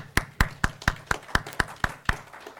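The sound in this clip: Clapping to welcome two speakers at an evening event, heard as sharp, evenly spaced claps in a steady beat rather than a dense wash of applause.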